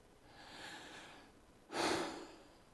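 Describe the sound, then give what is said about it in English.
A dying woman's last breaths: a soft, drawn-out breath followed by a sharper, louder rush of breath near the end, faint overall and without speech. “And that was her last breath.”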